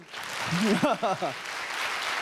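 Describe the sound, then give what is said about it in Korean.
Audience applause at a concert by a youth Korean traditional orchestra: dense, steady clapping fills the whole clip, with a voice speaking over it in the middle. “부산 청년 국악관현악단이 힘차게 날개를 펼 수 있도록 큰 박수와 응원의 박수와 격려를 부탁드리겠습니다”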